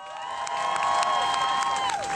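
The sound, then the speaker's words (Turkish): An audience claps and cheers after a speaker is introduced at a talk. Scattered claps mix with sustained whoops and whistled tones. The sound builds during the first half and then holds, fairly quiet overall. “Claire Staples'ını alkışlayalım lütfen.”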